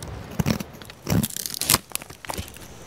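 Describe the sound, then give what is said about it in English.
Old, heavy shears cut through a sick, knotted maple limb outdoors in a front yard, producing a few sharp crunching snips and tearing sounds separated by brief quiet gaps. “so we're outside, trimming branches from the maple in the front yard. It's too cold to talk, aside from how to make a clean cut.”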